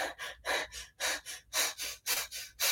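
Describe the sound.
Rapid, anxious breathing is demonstrated by a voice imitating a restless mind, with many quick, loud, airy gasps and exhales in an even, hurried rhythm and no talk.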